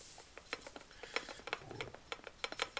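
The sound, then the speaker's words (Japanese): A Panasonic dishwasher is being started, giving faint mechanical clicks and ratcheting ticks in an uneven series of small knocks. “迷うねまあ回そうこれをこのままにしとくと夜夜回す時に困るからこれは回してしまいましょう食洗機”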